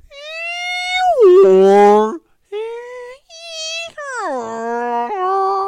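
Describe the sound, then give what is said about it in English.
A human voice imitates whale song played over a submarine's sound system, in several drawn-out moaning, wailing phrases. The phrases swoop down and climb in pitch, loud and with nothing else behind them. “stretching his arms out, going, it's just a whale. They're just like this in the ocean all the time”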